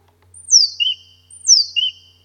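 A bird sings two identical short phrases in a local song dialect, from among about 300 birds in a hedge. Each phrase is a high, sweeping, descending whistle followed by a lower, brief note, clear and alone.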